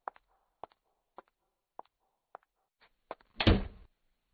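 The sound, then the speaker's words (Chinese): A bedroom door closing: a run of several light, evenly spaced taps leads into one heavier, broader thud as the door shuts, all fairly faint. “在关上卧室的门的时候”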